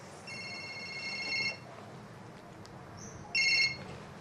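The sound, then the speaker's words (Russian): A telephone ringing: a bright electronic trilling ring lasting over a second, a pause with faint background noise, then a second, shorter burst of the same ring. “Позвонил телефон.”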